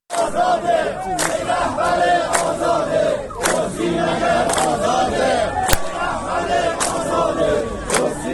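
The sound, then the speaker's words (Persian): Chanting from a crowd of retired social security pensioners at a rally in Iran: many voices shout slogans loudly and without pause, with sharp, evenly spaced accents that give the chant a steady rhythm throughout. “این صدای گروهی از معترضان در عراق است.”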